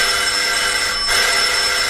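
A doorbell rings in one continuous, shrill electric ring that holds steady and loud for the whole clip, with no voices over it.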